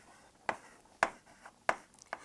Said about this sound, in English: let me write it once again